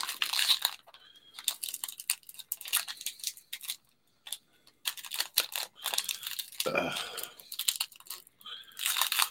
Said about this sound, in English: Yeah, all in all, not a bad pack. I'm getting mine open here.